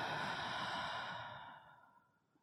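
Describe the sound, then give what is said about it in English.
A deep breath is released out through the mouth during a grounding breathing exercise, as a long, soft, airy exhale that slowly fades away, quiet and alone. “we'll start with three deep grounding breaths, breathing in through the nose and releasing out the mouth.”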